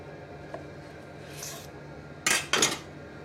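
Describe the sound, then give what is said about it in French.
A knife cuts through a baked brioche topped with dried figs, fresh from the oven after 30 minutes at 180 degrees. A faint rub comes first, then two short, harsh scraping strokes, loud and close together. “Et voilà, après 30 minutes passées au four, on passe au découpage.”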